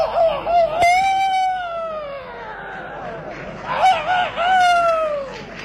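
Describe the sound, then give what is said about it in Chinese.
A rooster crows and squawks after being struck, giving two long loud calls that each sag in pitch toward the end, with a sharp crack early in the first call. “把这公鸡拿起来，使劲的这么一抽，把这公鸡打的小驴叫了”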